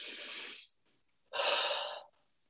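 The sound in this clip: Two long, deep breaths, each lasting under a second, are separated by a short silence. Both are airy and fairly loud, with no voice.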